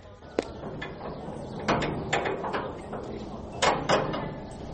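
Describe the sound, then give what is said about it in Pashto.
A prison cell door being opened, heard as a few sharp metallic clicks and clanks over a low, steady background rumble. “ضابطه دروازه خلاصه کړه.”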